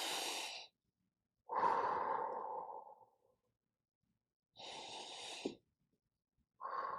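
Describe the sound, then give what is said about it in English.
A person takes slow, deep breaths, each a long, airy, soft rush of air separated by stretches of silence. A few breaths are heard in a calm, even rhythm. “You could create a new cue to take a few deep breaths. Let's do that now.”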